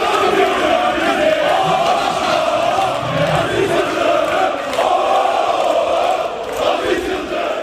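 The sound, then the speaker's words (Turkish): Members chant intensely at a tense Fenerbahçe extraordinary congress, a dense, loud mass of voices that continues throughout and dips briefly near the end. “Sarı lacivertlerin olağanüstü kongresi gergin başladı. Yıldırım ve Safi'yi destekleyen üyeler yoğun tezahürat yaptı.”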